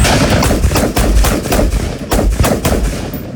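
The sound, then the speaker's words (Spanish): Gunfire from heavy-caliber weapons at shooting practice: many loud, rapid shots run together in a dense, continuous volley with brief dips between bursts. “Entre ellas, prácticas de tiro con armas de grueso calibre.”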